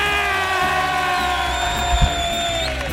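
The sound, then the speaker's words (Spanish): A studio audience screaming and cheering at the opening of a live show: a loud, steady roar of many voices with whoops and sustained shrill tones riding above it. “¡Qué público más potente! ¡Un público que suena tan estruendosamente como así!”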